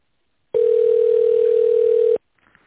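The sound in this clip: A telephone ringback tone sounds as an automated phone line transfers a call to an operator: one loud, steady, unbroken beep lasting over a second and a half, then near silence with faint rustling.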